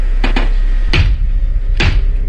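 Knocking from a horror film trailer, a child's knocking game in a haunted house: a few sharp knocks, two quick ones close together, then two more spaced well apart, over a steady low rumble.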